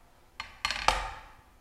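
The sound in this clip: A heavy solid pan weighing about 1.35 kilos is set down on a kitchen scale, giving three quick metallic clunks with short ringing decays, fairly faint and with no talking.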